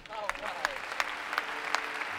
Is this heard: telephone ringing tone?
no